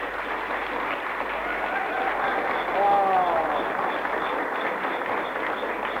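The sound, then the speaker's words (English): Applause for a speaker at a Christian meeting: a soft, steady patter of clapping throughout, with a voice briefly heard over it midway. “Give him a clap.”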